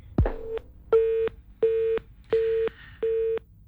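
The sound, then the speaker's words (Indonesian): A telephone line's disconnect tone after a call drops: a sharp click, then a series of evenly spaced, identical steady beeps, loud and alone. “teleponnya terputus dari Ustadz Lutfi”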